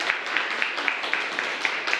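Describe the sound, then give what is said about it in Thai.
Classmates applauding a group that has just presented in a school classroom: a moderate wash of clapping with a steady pulse of sharper, evenly spaced claps, as if many hands keep time together. “ครับปรบมือให้กับเพื่อนกลุ่มนี้ด้วยนะครับ”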